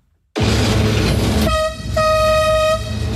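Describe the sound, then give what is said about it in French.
Inside the driver's cab of the Petit train de la Mure in Isère, a loud machine rumble starts abruptly. The train horn then sounds a steady tone over the engine noise, breaks off briefly, and resumes before stopping. “On entend beaucoup de bruit, c'est impressionnant une cabine de train comme ça. Effectivement, on a beaucoup de sons entre le bruit de la machine, le bruit des rails qui peut craquer un petit peu, le klaxon”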